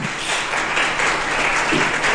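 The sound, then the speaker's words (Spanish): Dense applause from a church audience, a loud, continuous wash of many hands clapping at a steady level without pause. “Den un aplauso poderoso a Jesús.”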